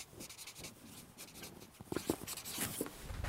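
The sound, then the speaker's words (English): Marker writing a word on a board: soft, scratchy strokes with brief pauses, growing louder and busier in the later part. “I'm going to write communion here.”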